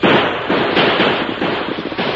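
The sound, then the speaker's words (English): Rapid gunfire aimed at outlaws fleeing on horseback after a stagecoach holdup: many dense, overlapping cracks merge into one loud, continuous volley with no clear gaps between shots. “Shoot him, Tom. There, they emptied the bullets. I'll have to load her.”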